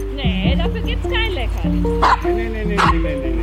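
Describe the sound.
Dogs at a fenced dog meadow with tree trunks for exercise: a run of short barks, yips and whimpering whines, mostly high-pitched, with a few sharper bursts, going on throughout.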